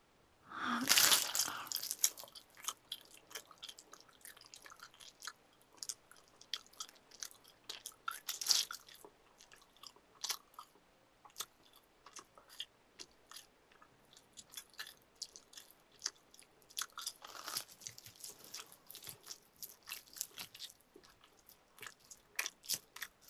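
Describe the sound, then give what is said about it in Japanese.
Meat bitten and chewed off a thigh down toward the bone: many wet, crunchy bites and smacking chews, with a loud burst near the start, then irregular chewing that keeps going throughout. “思いっきり食べてるって感じする。”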